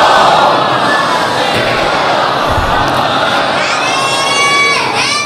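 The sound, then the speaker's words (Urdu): A crowd recites durood aloud in unison, a loud, sustained chant of many voices blended into one dense, unbroken wall of sound. “ایک بلند آواز سے درود پڑھ دے محمد اور ان کیا.”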